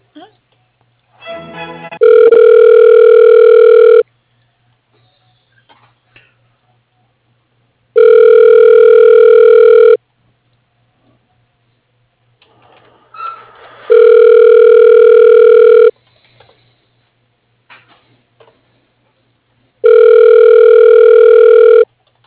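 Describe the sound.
Four long, steady, evenly spaced telephone ringing tones sound over a line while a call is put through to voicemail. Each tone lasts about two seconds, with quiet gaps between them and a few faint line noises.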